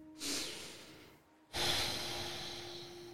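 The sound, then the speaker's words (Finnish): Deep breathing in and out through the nose: two soft, airy breaths, a brief one followed by a longer, fuller breath that trails off slowly, with no talking. “Hengitä muutaman kerran syvään nenän kautta, sisään nenän kautta ulos.”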